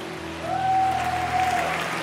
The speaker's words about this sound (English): Give the Lord a mighty clap of praise.